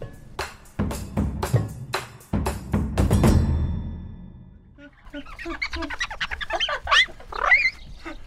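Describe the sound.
Squeaky wiping of windows by hand: a few broad rubbing swipes, then many short, high, squealing squeaks in quick succession.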